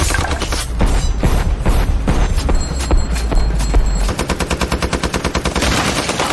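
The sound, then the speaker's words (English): Machine-gun fire rakes a house from an SUV, bullets tearing up the walls: loud, dense bursts for about four seconds give way to a fast, regular rattling pulse that continues to the end. “splinters and dust flying all around him as the bullets tear up the walls.”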